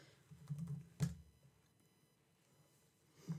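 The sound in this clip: Soft typing on a computer keyboard while searching an online marketplace for photo cards: a few faint keystroke clicks, a slightly louder tap near the middle, then near silence and one last click.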